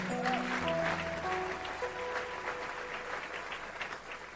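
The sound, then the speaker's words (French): A church audience breaks into applause at a morning service, a steady patter of many hands clapping that starts strong and slowly thins out, fairly faint, with a few stray tones under it. “Que Dieu soit béni, est-ce qu'on peut l'acclamer ce matin?”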